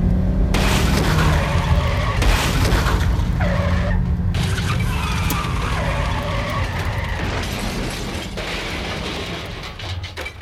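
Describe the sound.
Tyres squeal and a car skids with heavy crashing noise as a taxi is hit by a car with high beams. The sound is loud, harsh and continuous throughout, easing slightly toward the end.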